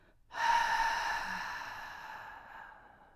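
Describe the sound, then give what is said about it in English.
A breathing exercise: the breath starts abruptly, then a long, soft, airy exhalation slowly fades over about three seconds, with no voices. “I want you to take a quick breath in, hold it for twice as long, and let it out for four times as long.”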